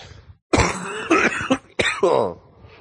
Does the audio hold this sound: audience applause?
no